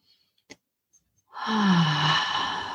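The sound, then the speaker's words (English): A deep breath drawn in during a guided meditation: one long, steady inhalation of over a second, with a low voiced hum beneath the airy rush, following a faint click and near silence. “Nice deep breath in.”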